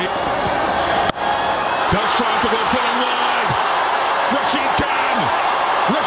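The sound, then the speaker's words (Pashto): Stadium crowd roaring as Gujarat Titans win a cricket match on a last-ball six. The cheering is a dense, loud, unbroken wall of noise with shouting voices running through it. “په لوبغالي کې د ګجرات ټایټانز لوبډلې د بریا له امله د مینوالو د خوښۍ شور”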